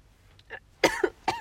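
Coughing from a person choking while eating dinner: a soft throat noise, then three sharp, harsh coughs in quick succession.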